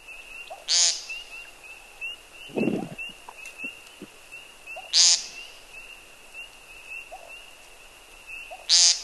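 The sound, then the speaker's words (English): American woodcock calls with frogs chirping: three short buzzy calls spaced a few seconds apart sound over a steady, high, continuous chorus of frog chirps. “now we'll know what to listen for the American woodcock.”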